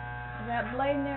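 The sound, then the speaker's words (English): Electric hair clippers run with a steady, low buzzing hum while a barber trims around the sideburns. A voice is heard under the drone. “if the clipper's cutting good, I can go all the way around that way and know just how much to hold it back up to keep them”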